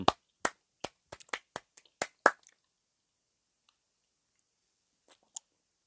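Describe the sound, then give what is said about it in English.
Crisp hand claps, loud against silence: a quick, slightly irregular run of about a dozen claps, a pause of a few seconds, then two more separate claps near the end. “So, some hand claps.”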